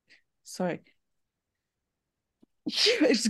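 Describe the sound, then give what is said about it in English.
A single sneeze bursts out at the end as a sharp, loud, breathy blast, following a brief voiced sound and a quiet pause. “sorry, unedited podcast, I have to leave that sneeze in there”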